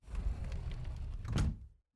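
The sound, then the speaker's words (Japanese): A front entrance door being closed: a quiet, sustained scraping rumble of under two seconds that swells slightly near the end, then stops abruptly into silence. “ああ、とりあえず開けっぱなしは寒いから玄関閉めて。”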